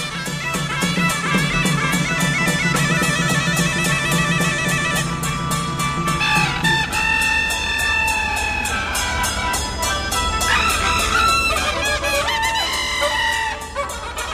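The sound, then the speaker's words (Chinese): Hen clucking after laying an egg, heard during a live concert: loud, continuous clucking calls run through the whole clip over dense, sustained tonal sounds. “下蛋了。 哦，下蛋了。 你听不上这鸡下蛋吗？”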